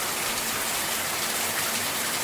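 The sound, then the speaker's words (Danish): Heavy cloudburst rain pouring down after nearly half an hour of downpour, a loud, dense, unbroken hiss of falling water with no talk. “hvordan det vælter ned. Og sådan har det altså regnet i snart 25 minutter.”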